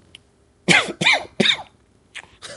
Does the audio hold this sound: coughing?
yes